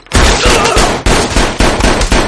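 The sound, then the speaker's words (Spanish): Loud gunfire in a film shootout as two people exchange shots, several sharp cracking blasts in quick succession, each ringing briefly before the next. “Sara dispara al hombre, que se gira hacia ella y dispara a discreción.”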